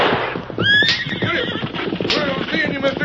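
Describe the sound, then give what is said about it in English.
Horses neigh loudly as a wagon driver urges them on, two high, shrill whinnies rising over a steady clatter of hooves and rattling movement. “Now whip up them horses, driver, and don't look back.”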